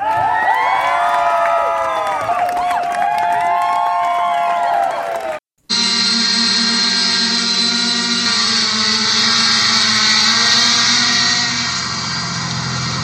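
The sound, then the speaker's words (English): A mini helicopter drone flies with a steady, loud whirring hum that carries several sustained tones. Before it comes a noisier stretch of shifting tones, then a brief silent gap. “That's the sound of a mini helicopter drone, and soon you will be hearing it over East County.”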